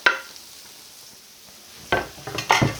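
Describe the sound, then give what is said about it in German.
Onions dropped into a hot pan of schnitzel drippings sizzle, a few crackling bursts arriving after a mostly quiet stretch with faint clatter. “Und jetzt kommt in den Bratenrückstand der Zwiebel hinein.”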